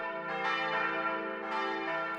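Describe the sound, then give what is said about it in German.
Church bells ringing from a nearby church, a full, resonant peal with rich sustained overtones that swells twice, loud and continuous with no voices. “doch gerade in diesem Moment beginnen in der nahen Kirche die Glocken zu läuten.”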